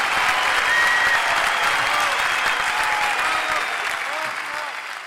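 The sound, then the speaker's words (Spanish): Applause from a crowd: a dense, steady wash of clapping that begins fairly strong and gradually fades over the last couple of seconds. “aplauso.”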